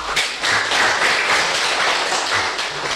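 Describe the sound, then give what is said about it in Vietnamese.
A room of people in a class led by a teacher breaks into brisk applause, many hands clapping in a dense, loud patter that runs steadily to the end. “Tuyệt vời, đó, vỗ tay.”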